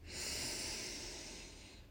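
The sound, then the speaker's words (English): A slow, deep breath drawn in during a counted breathing exercise, one soft, steady airy rush lasting the whole clip and easing off slightly at the end. “Let's try a deep breath again, or a counted breath. Ready? In for 5.”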